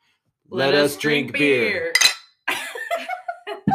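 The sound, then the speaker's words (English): Beer glasses clink together in a toast, giving one bright, brief clink between stretches of people talking. “let us drink beer. That's excellent. That was a great clink, by the way. That was awesome.”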